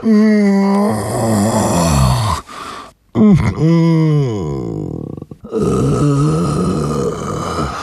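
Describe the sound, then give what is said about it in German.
Long, drawn-out, pitiful groaning from a human voice: a few loud, sustained moans with a wavering, bending pitch, separated by short breaks. “Es klang wie ein Stöhnen, ein Ächzen, langgezogen und auch ein bisschen mitleiderregend.”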